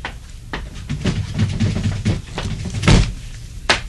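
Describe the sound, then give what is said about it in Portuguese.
A window is shut against the dark of night with a few soft knocks and rubbing handling noises, then a louder thump late on and a final sharp click. “Isso se pode remediar facilmente. Fechando a janela.”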